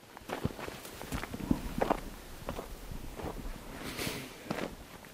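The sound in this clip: Footsteps of people strolling through the lower part of the mountain village of Vrin: irregular, scuffing steps on hard ground, some sharper and louder than others, with no clear talk.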